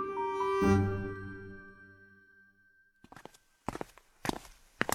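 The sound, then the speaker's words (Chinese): Footsteps climbing long concrete stairs out of a basement: a few dull, heavy treads in irregular rhythm, beginning after a quiet stretch and growing slightly louder, with no talk. “顺着长长的水泥台阶走出地下室，虽然网吧结界已破，但这条阶梯还保持着原样，每一步踏上去都是异常沉闷的响声。”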